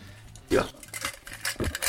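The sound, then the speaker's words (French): Small glass and metal balls recovered from used spray cans clink and rattle together, a few sharp clatters at irregular intervals. “Ah oui, d'accord, c'est des petites billes comme ça. Ouais. Je suis en train de découvrir que t'as à peu près une taille de billes de verre et t'as 2 tailles de billes métalliques.”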